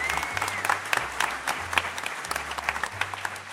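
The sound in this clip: Audience applause from a crowd, a steady wash of many hands clapping with scattered sharper claps, moderately loud and continuous throughout without speech.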